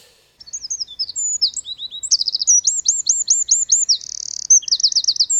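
High chirping whistles and rapid trills from a Mediterranean bird of prey now found in drier areas, repeating in many short, bright bursts with no talk underneath.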